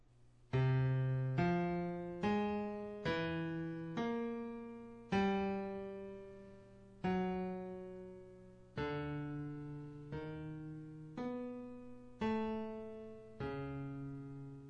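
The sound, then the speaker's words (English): A twelve-tone row: all twelve chromatic notes played singly in serial order, each a clear, pitched tone in a low-middle register that strikes and then fades, at an unhurried, uneven pace with nothing else heard. “Arnold Schoenberg when he wrote 12-tone music, when he first serialized these 12 notes into the same 12 notes, but into a completely different order that sounds like this.”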